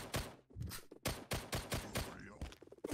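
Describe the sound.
Video game gunfire strikes the player's character in rapid, sharp shots grouped in irregular bursts. The shots are fairly faint and there is no talk.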